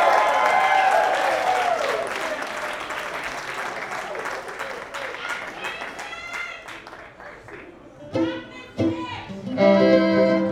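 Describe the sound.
Concert audience applause welcoming a fiddle player in St. Louis, a loud burst of clapping that gradually thins and fades, with tonal sounds rising near the end.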